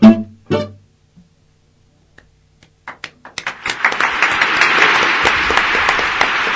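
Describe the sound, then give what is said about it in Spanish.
Applause starts as a few scattered, separate claps after a near-silent gap, then thickens within about a second into steady, dense clapping that holds loudly to the end. “Vienen tardes los aplausos acá, con la lluvia, por la lluvia.”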